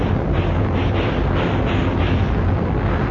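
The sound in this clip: Warship's cannon fire: a heavy, continuous roaring rumble, loud and dense throughout, with faint pulsing surges and no distinct single blast or voices.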